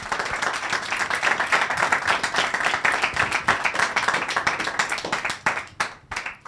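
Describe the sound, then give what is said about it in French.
Hands clap in applause for a friend: a lively burst of distinct, quick claps that holds steady for several seconds, then thins out into a few separate, scattered claps before stopping. “S'il vous plaît, des applaudissements pour notre ami Pierre.”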